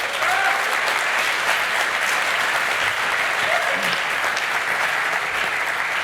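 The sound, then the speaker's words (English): Sustained audience applause after a series of short conference lightning talks, a dense, even wash of clapping at steady high level throughout, with no pauses. “could we get a round of applause for all of the great”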